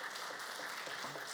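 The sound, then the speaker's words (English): A church audience claps on Mother's Day to praise moms, a brief, faint but steady patter of many hands with no voices over it. “And I just want, can we just clap and give the Lord praise for the moms and our mom figures in our life?”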